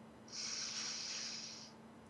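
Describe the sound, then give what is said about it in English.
One slow, deep in-breath is drawn during a guided calming meditation. It is a soft, airy hiss that swells and holds for about a second and a half, faint and with no talk over it. “As we take a deep breath in”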